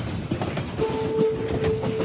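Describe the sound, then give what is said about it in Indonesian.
A train slowing down, as a radio drama sound effect: rolling wheel rumble with rhythmic clatter, joined partway through by a steady high, thin squealing tone that holds to the end. “kulihat kereta ini menurunkan kecepatannya. Kini kereta berjalan sangat pelan.”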